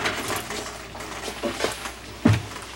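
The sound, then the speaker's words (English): Rummaging through a toolbox for a screwdriver: soft scraping and shuffling with a few metallic clinks, and one sharper clank near the end. “Let's try rolling this thing over, and I'll see if I can get a screwdriver out of the toolbox.”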